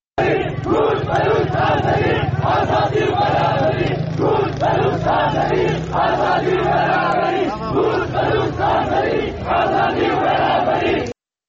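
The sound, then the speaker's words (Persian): Large crowd in Piranshahr chanting a slogan for Kurd, Baloch and Azeri equality and freedom at a funeral; many voices shout in a loud, steady rhythmic chant, repeating the phrase without pause. “همچنین مردم در این شهر شعار کرد، بلوچ، آذری، برابری، آزادی سر دادن که میتونیم صدای مردم پیران شهر رو بشنویم.”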